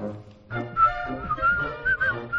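A person whistling a short, halting tune, with several clear high notes shifting up and down in pitch and breathy pauses between phrases, fairly quiet overall.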